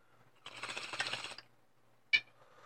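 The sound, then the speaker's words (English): Bong hit: a faint, bubbling, gurgling rush of noise lasts about a second, then after a pause comes a single sharp click. “Here, we take a bong rip”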